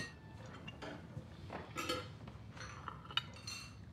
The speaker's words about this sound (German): Aber meine Mama kriegt das größte Stück, das Geburtstagskind. Gib mir mal den Teller.